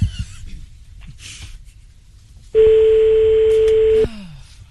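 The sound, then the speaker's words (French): A telephone tone as someone places a call: one steady, loud electronic tone lasting about a second and a half, with faint clicks before it and no voices. “Allez, on appelle Réjeanne.”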